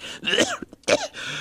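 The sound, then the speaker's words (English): A couple of rough, raspy coughs from a lingering cough left over from a bout of flu. Two main bursts come close together with a short break between them. “Oh, that cough of yours just doesn't seem to clear up. You've been coughing like that since you had that bout with the flu last month.”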